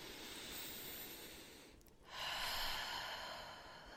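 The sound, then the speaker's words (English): A gentle breath in, taken during a guided tapping relaxation exercise. A faint, airy hiss eases off briefly, then swells into a soft, slow inhalation that fades away, with no talking. “just taking a gentle breath in again”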